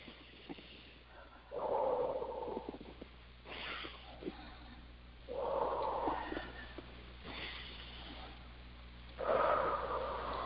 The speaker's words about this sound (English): And three nice deep, deep breaths.